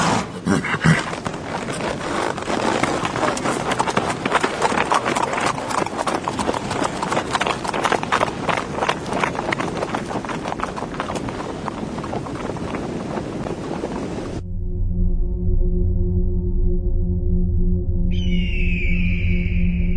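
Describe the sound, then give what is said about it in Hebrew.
Horse hooves clip-clop in a quick, steady rhythm of many loud strikes, then stop abruptly and give way to a steady droning tone. “לך אתן סוס משלך.”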